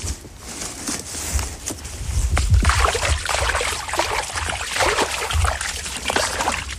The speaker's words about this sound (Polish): Takie byki lubią się paprać, to tak zwane paprzyska. One się ochlapują w ten sposób.